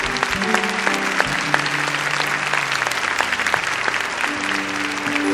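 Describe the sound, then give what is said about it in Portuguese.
Applause from an audience at a Catholic Mass after the Gospel reading: dense, steady clapping that holds at an even loudness throughout, without a break. “Aplaudamos com mais força a palavra de Deus.”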